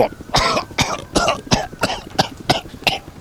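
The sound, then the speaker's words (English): A person coughs repeatedly, giving about eight harsh, evenly spaced coughs in quick succession with a throat-clearing rasp. “I waste my monologue time on coughing.”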